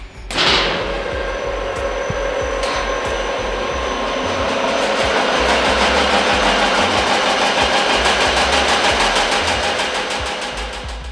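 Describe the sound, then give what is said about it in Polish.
A seed-processing machine with a conveyor belt runs in a seed extraction plant, a loud, steady mechanical roar with a fine, rapid rattle throughout. A sharp knock comes early on before the noise settles into a constant drone. “A czy możemy włączyć tą maszynę, zobaczyć jak ona działa? Już włączam, będzie głośno.”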